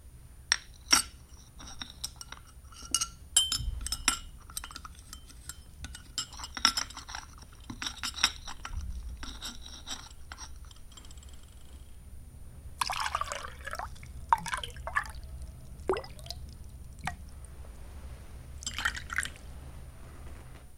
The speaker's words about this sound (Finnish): Hänellähän oli edessään kuppi ja lautanen ja lusikka, ja punaista mehuahan hän siinä joi kuin joikin.